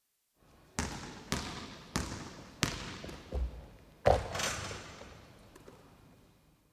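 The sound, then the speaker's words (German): A basketball bounces in a steady run of hollow thuds, about one every half second to second. Each impact leaves a short ringing tail, and one later bounce hits hardest. “Er spielt Basketball.”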